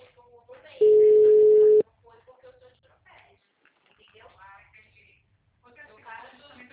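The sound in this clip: One long ringback tone sounds on an outgoing telephone call, a steady mid-pitched beep lasting about a second, with faint talk before and after it.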